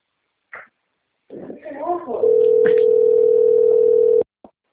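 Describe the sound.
A telephone tone: a steady, even electronic tone holds for about two seconds after a few brief vocal sounds, then a short trailing sound follows.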